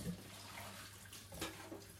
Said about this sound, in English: Right, so, let's wash this bad boy up.